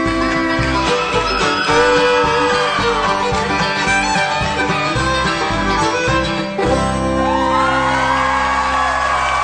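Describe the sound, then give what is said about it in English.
Fans at a live bluegrass concert cheer with loud, sustained whoops and yells. The enthusiastic calls rise and fall in pitch and blend with the dense sound of the crowd and the stage. “They've got some enthusiastic fans in the audience there.”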